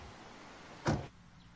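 A single short, dull thump, like a car door shutting as someone gets into a car, stands out midway over a low, steady hum. Afterward the background turns quieter.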